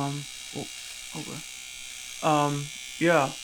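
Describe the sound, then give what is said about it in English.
An electric shaver buzzes steadily at a low level while a few short voiced, hum-like sounds rise over it, the last two louder and longer. “I'm just going to start shaving, if that's all right. Hopefully, it's not too noisy.”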